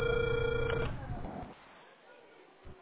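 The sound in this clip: A telephone ringing tone sounds on a line during a call: a loud, steady electronic tone fills the first second, then cuts off, leaving faint line hiss.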